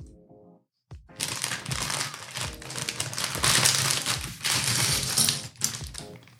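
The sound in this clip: Small plastic bags being torn open and handled, giving a dense, crinkly rustling and crackling that starts after a brief faint tone and a short gap, then continues busily to the end.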